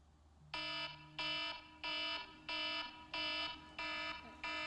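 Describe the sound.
A wake-up alarm clock sounds seven evenly spaced, buzzy electronic beeps, each a steady tone lasting about half a second, fairly quiet and alone.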